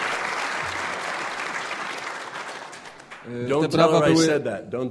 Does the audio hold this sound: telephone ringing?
no